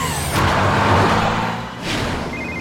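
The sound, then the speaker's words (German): Cartoon engine sound of the Paw Patrol Mission Cruiser racing through the jungle, a low humming drone broken by two loud whooshing surges. “Der Mission Cruiser raste durch den Dschungel”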